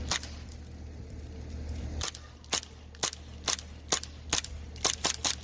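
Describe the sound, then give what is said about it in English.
Gunshots from a hot, hard-shooting gun fired in an uneven series of many sharp cracks, sparse at first and then coming faster, some in quick pairs, over a low background rumble. “Wow, this thing's hot. Damn, dude. That's shooting good.”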